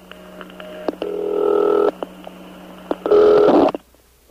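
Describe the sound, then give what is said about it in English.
A Western Electric telephone rings as on a big-city step office line: two harsh, buzzy ring bursts, the first longer, with faint clicks and a steady low hum between them. “it's made by Western Electric. And it's been nicknamed by phone freaks as a city ring step office, because only in large cities do you hear a ring that sounds, or did you hear a ring that sounds like this.”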